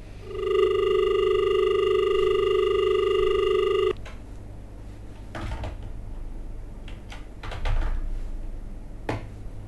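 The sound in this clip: A steady telephone tone for an incoming call holds for about three seconds, then stops abruptly, followed by a few soft clicks and handling knocks.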